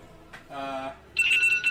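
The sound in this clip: Alarm ringing: a shrill, high-pitched warbling tone breaks in after about a second of quieter, lower sounds and continues loudly to the end.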